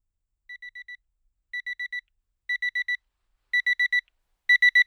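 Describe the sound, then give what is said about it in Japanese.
A nap alarm clock beeps in five groups of four high-pitched electronic beeps, evenly spaced, each group louder than the one before, with silence in between. “かわいそうですが、 アラームを鳴らすとしましょうか。”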